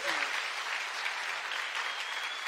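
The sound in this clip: A church audience applauds a welcome for two guest speakers at an evening gathering: continuous, even clapping from a crowd, fairly soft and steady from start to end.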